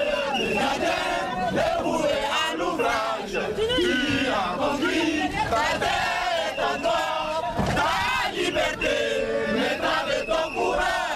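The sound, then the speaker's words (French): A crowd outside a courthouse sings the national anthem as detainees are led to a prison van. Loud massed voices hold a continuous, chant-like melody. “Le public les accompagne dans le fourgon, un car spécial pour les détenus en chantant l'hymne national.”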